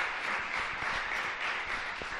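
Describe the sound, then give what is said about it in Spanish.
Audience applause at a live event at the Fundación San Valero, heard as a steady, even wash of many hands clapping, fairly faint and free of talk. “Un aplauso para Pepe.”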